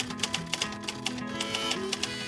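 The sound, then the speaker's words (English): Typewriter keys clacking in a quick, uneven run of many sharp clicks at moderate loudness, with no talk. “there's the tactile feeling of the keys. There's that clack and that click, the swoosh when you return it.”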